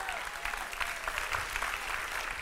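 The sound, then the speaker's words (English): A church audience claps their hands to the Lord during worship, producing faint, dense, continuous clapping that holds at a steady, quiet level. “Come on, somebody ought to clap their hands to the Lord right now.”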